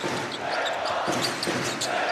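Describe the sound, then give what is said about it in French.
A basketball thumps on the court as a player dribbles during a game, a few dull bounces under steady crowd noise and a commentator talking. “Et Nedovic qui s'en mêle un peu dans son dribble.”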